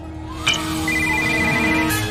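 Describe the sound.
A mobile phone ringtone plays continuously: a bright, electronic melody of sustained tones over a busier backing.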